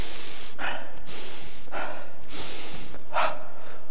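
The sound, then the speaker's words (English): Big, deep breaths drawn in by a person, several sharp, noisy inhalations with a snorting, gasping edge, separated by brief pauses, with no words. “So I thought, right, I'll take an even bigger breath. Oh, so I took a bigger breath.”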